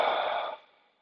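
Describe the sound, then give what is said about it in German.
Slow breathing through the nose during a guided relaxation exercise: a single soft, airy hiss that starts at once and fades away within about a second, with no talking. “Ein letztes Mal durch die Nase tief ein und tief wieder aus.”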